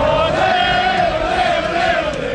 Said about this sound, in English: thousands of Canadian footy fans bursting with pride cram city streets this afternoon as they march down to the stadium for Canada's big match